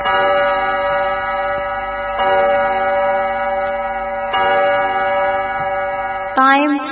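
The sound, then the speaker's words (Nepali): Studio clock chime on a Nepali radio station marking exactly 8 pm: three long, loud, steady electronic tones in a row, each rich in harmonics and lasting about two seconds. “यति बेला हाम्रो स्टुडियोको घडीमा रातिको ठिक 8 बजेको छ।”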